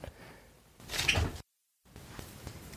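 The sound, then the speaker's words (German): A window being shut, a short muffled scraping clunk that swells for about half a second, then a moment of silence and faint background noise. “ich musste kurz mein Fenster zumachen.”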